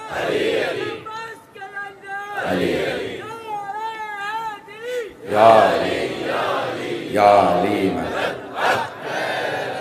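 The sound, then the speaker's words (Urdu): Slogans chanted by a large gathering during a speech: a lead voice sings out long, wavering, sustained calls, answered by a few loud shouted responses from the crowd. “اب دیکھیں نعروں میں بھی وقت گزرا”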